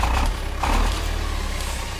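A machine sound effect of a song generator starting up, a low, engine-like rumbling drone with two louder surges near the start.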